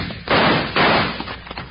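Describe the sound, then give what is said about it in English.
Two loud gunshot effects during a holdup in a Western radio drama, each a broad, noisy blast with a lingering rough tail, the second following the first within half a second. “That was a nice shot. But I didn't mean to shoot.”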